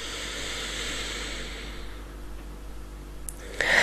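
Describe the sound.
A deep inhalation during a guided breathing exercise: a soft, airy hiss that slowly fades over a few seconds, heard alone without talk.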